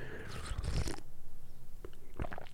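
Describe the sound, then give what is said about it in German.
Coffee being sipped: a few short, wet slurping and swallowing sounds, with a longer noisy burst at the start and softer mouth noises later, all without talk. “Nochmal ein Schlückchen Kaffee sagen, äh, trinken.”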